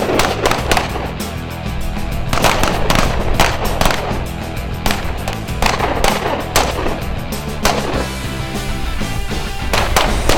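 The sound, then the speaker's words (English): Rifles and handguns firing at an outdoor shooting range in Phoenix, Arizona: many sharp, irregularly spaced shots crack loudly over a constant, dense background sound, with no clear talk. “in sunny Phoenix, Arizona, out at the range firing rifles, handguns”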